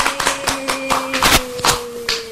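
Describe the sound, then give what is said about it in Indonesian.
Hands clapping for a child during a lesson: many quick, uneven claps in a loose run, with a steady low humming tone underneath throughout. “Tepuk tangan dulu, abis.”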